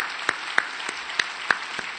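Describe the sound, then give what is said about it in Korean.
Applause from a church audience honouring students, a thin patter of hand claps with a few louder sharp claps standing out at an uneven rhythm, brief and fairly quiet. “다시 한번 박수 드립니다.”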